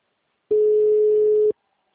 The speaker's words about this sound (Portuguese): Pelo menos o celular dela hoje tá chamando.